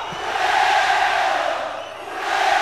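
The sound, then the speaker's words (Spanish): An audience chants European football-style songs in unison, a loud, sustained roar of many voices that dips briefly and then swells back. “Cuando el público empieza a entonar cánticos europeos, que se oiga con huevo,”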